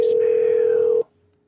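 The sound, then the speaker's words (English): A single steady electronic ringing tone on a telephone line sounds for about one second, then cuts off into near silence. “Or it's just going to keep ringing forever.”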